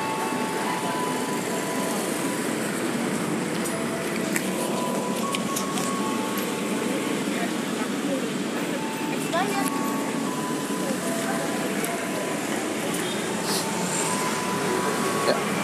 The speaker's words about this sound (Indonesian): jam menunjukkan pukul 9 malam dan sekarang suasananya uh, lagi berada di stasiun Cawang